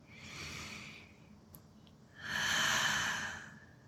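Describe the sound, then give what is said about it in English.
A deep breath drawn in, heard as two faint, long rushes of breathy air separated by a short pause, the second louder and fuller. “let's take a breath in.”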